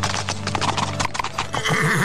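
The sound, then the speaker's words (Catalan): Hooves of a fast, saddled horse clip-clopping as it is ridden, with many quick, rhythmic hoofbeats sounding loud and continuous throughout. “va guarnir i ensellar el cavall més ràpid que tenia a l'estable, i va muntar”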